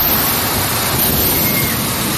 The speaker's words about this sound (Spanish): esta es la lluvia y el viento que cayeron anoche en Castellón.